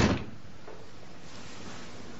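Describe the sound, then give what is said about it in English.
A door sounds as a man backs out through it: one short, solid thud right at the start, then only low, steady background hiss. “Miles backs out a door.”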